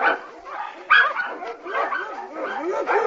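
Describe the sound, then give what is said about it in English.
Dogs in a courtroom give a run of excited, overlapping yips and whimpering whines. The high, wavering cries go on without a break for the whole stretch. “Whose dog is this?”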